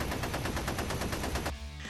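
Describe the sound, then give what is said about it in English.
Machine gun firing a short burst: a loud, rapid stream of sharp shots over about one and a half seconds, stopping abruptly and leaving a brief lingering tail. “You can see the machine gun shoot get like 3 shots off in the direction of kind of like a... almost like a bell tower, but with no bell.”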